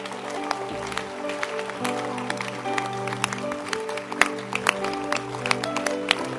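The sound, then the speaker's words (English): An audience claps hands at the close of a church service, with many sharp, irregular claps over a steady, sustained tonal background throughout. “Okay, clap your hands. You can clap your hands.”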